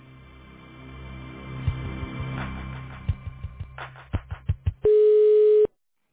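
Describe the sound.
A telephone line during call connection: a low hum carries a run of sharp clicks, then a single loud, steady ringing tone that cuts off abruptly, leaving silence.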